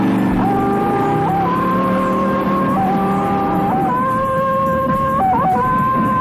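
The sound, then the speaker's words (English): A car engine accelerating hard in pursuit, a loud, continuous roar with a tonal whine that shifts in pitch in distinct steps, like repeated gear changes, and holds full throttle throughout. “You're sitting there in the corner of the Beltway, running your radar, when suddenly a hot-looking dame blows by you about 90 miles an hour in a Firebird. You hit the gas and you are in pursuit!”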